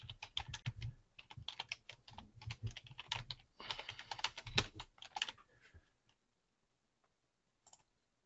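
Typing on a computer keyboard as someone writes a chat message during a live online session. Many quick, clattering keystrokes come in uneven bursts for several seconds, then stop, leaving near silence with one faint click.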